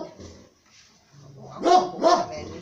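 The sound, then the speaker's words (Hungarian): Dogs barking outdoors, two dogs present: quiet low sounds give way to two sharp, loud barks in quick succession near the end. “Ott de, morzsa, ott van két kutya is kint. Ott van két kutya is kint.”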